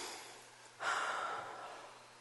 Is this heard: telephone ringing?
no

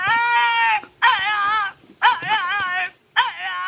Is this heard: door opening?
no

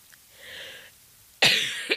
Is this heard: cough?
yes

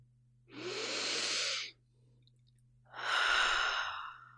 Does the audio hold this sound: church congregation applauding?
no

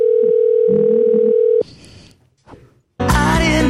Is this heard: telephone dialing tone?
yes

